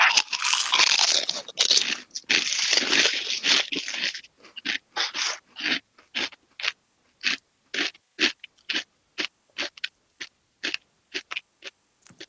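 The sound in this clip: Crunching as three lime-flavoured Pringles chips are eaten at once. A dense burst of loud crunching is followed by many evenly spaced chewing crunches in a steady rhythm, with no talk.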